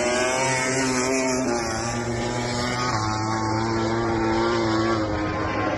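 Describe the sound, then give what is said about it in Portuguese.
MotoGP motorcycles roar through a practice session at the Australian round, making a loud, continuous, high-revving engine whine with strong harmonics whose pitch steps and shifts as the bikes pass. “Treino da MotoGP aqui agora.”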